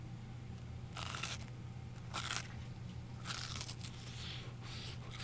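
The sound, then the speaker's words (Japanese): Bites into a fried potato croquette from a shop in Osaka give a few soft, quiet crunches, spaced about a second apart. The crisp bursts stand out over a faint background hum, with no talk. “まずばあちゃんコロッケからいただきたいと思います”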